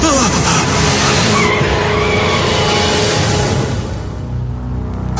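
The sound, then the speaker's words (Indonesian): A motorbike brakes hard and skids, giving a loud, harsh, sustained roar with a screeching edge that holds steady and then eases slightly toward the end. “Aku rem motorku sampai-sampai.”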